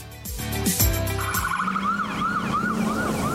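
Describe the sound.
An ambulance siren on a pothole-filled road in Mato Grosso sounds a loud, rapid wail. It sweeps up and down in quick repeating cycles after a few brief lower tones at the start.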